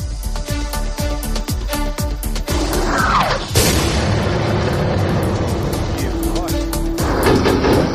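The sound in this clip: Explosions from bombing along a humanitarian evacuation corridor: a rapid train of sharp, hard bangs, then one heavy, loud blast midway that gives way to dense, sustained rumbling and crackle.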